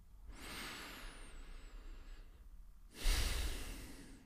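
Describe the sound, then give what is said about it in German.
Deep breaths during a guided relaxation exercise: one long, soft, airy breath, a short pause, then a second louder, rushing breath, with no talking. “Und jetzt nehmen wir einfach gemeinsam zwei, drei tiefe Atemzüge.”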